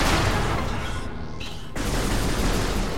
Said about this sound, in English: this way down here, we can unlock it with a missile, right?